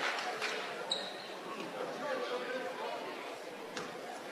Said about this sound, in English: One more coming. Couple dribbles, dips the knees.